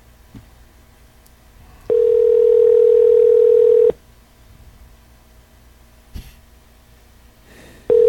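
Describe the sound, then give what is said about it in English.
Telephone ringback tone on an outgoing call: a steady low-pitched tone sounds for about two seconds, falls silent for several seconds with faint clicks, then starts again and is cut off at the end. “Calling the Hamburger Hall of Fame.”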